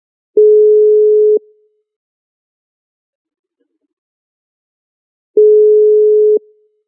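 Telephone ringing tones play while a caller's line is being connected: two steady, low-pitched beeps, each lasting about a second, separated by a long silence.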